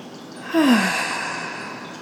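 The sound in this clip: A long, deep, breathy exhale is let out during a guided breathing exercise. A single sigh rises quickly, then fades slowly over more than a second into soft airy noise.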